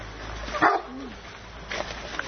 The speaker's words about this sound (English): Kitchen corral. That's the kitchen guard dog. Yeah, that's the guard dog. Maybe he's greeting us.